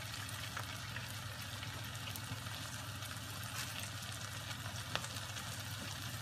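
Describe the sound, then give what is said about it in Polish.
Seasoned bacon frying in a pan gives a faint, steady sizzling hiss with light crackle and a single sharper pop near the end. “wtedy możemy spokojnie smażyć nasz boczek. Z 2-3 minuty na jedną stronę.”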